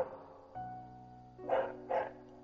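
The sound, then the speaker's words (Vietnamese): A neighbour's dog barking: two short, faint barks in close succession near the end, set against an otherwise quiet background. “mỗi lần mình thu âm là nó lại phá mình. Mình nói thật là mình đang rất là tức con chó hàng xóm này”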